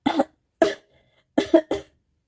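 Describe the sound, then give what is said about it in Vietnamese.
Dry coughing from someone who just choked on a sip of tea: sharp, fairly loud bursts with no talk. A couple come first, then a pause, then three quick coughs close together. “Y ho khan mấy tiếng, lấy tay gạt đi nước đọng trên môi.”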